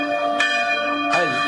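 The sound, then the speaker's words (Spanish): Church bell rung by a village priest, a sustained metallic tone with bright overtones, renewed by a couple of clear strikes that ring on steadily without voices. “Casi se sale la campana.”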